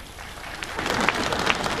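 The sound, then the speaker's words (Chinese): An audience at a live comedy stage show applauds, with a brief burst of steady, moderately loud clapping that swells slightly toward the end. “你对得起这么热情的观众吗？你对得起这么热烈的掌声吗？”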